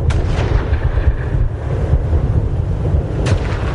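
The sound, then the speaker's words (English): Big guns firing in an artillery barrage: a dense, loud low rumble of continuous fire with a couple of sharper cracks standing out, at the start and near the end. “Hear how intense it is? Big guns. Big guns right up to the very last second.”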